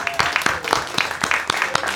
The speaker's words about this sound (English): Thank you. Round of applause.